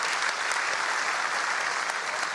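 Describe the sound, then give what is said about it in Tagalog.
Applause from a church audience for its worship team: a steady, dense wash of clapping that holds at an even level throughout. “Palakpakan nga natin ang ating worship team.”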